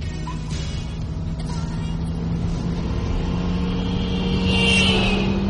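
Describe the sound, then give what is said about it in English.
A Ferrari engine as the car is driven fast: a steady motor drone that grows louder and more strained toward the end. “You always drive too fast in this car. One doesn't buy a Ferrari to plod at 30 miles an hour”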